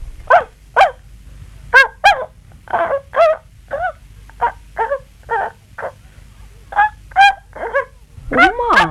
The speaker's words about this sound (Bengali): এটা আবার কি গো বৌমা, কুকুর মা? এ আবার কিরকম কুকুর গো, ঝাঁকড়া ঝাঁকড়া সাদা সাদা লোম,